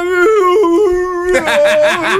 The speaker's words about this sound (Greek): Πώς ψέλνει ένα σκυλί.